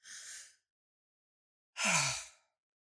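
A deep breath is drawn in with a soft, airy hiss, followed after a pause by a long sighing exhale that carries a low voiced moan. The two breaths stand alone with silence between them.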